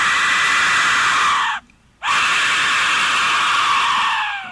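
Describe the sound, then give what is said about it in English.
A woman screams in two long, piercing, high-pitched cries separated by a brief silent break. Both are loud and sustained, and no talking accompanies them. “This is actual screams from my wife.”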